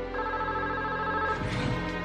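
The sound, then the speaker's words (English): A telephone ringing during a police interview as a call comes in: a steady, bright, tonal electronic ring that holds evenly, followed near the end by a brief burst of noisy rustling. “The interview was interrupted by a phone call from Elkins' wife.”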